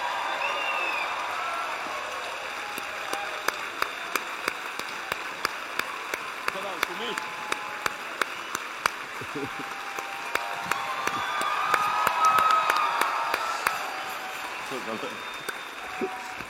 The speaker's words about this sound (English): let's give a warm rock welcome to Super Bowl winning quarterback, two-time Super Bowl, Russell Wilson. Let's give him a hand.